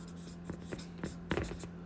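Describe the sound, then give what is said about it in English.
Scratchy writing strokes as something is jotted down by hand, a run of short, dry scraping bursts, fairly faint, with a few sharper strokes near the end. “I'm going to write that down. So we're going to write entice comments”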